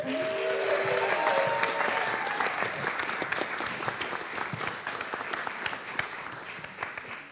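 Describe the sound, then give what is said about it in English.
Enthusiastic audience applause greets a performer coming onstage at a live music and poetry show: a loud burst of many hands clapping that holds steady, then gradually thins and softens. “And let's have a big hand, please, for Carla Kihlstedt.”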